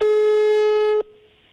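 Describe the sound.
A telephone call tone on an unanswered call: one loud, steady, buzzy electronic tone lasting about a second, then cutting off abruptly and leaving only a faint fading hum.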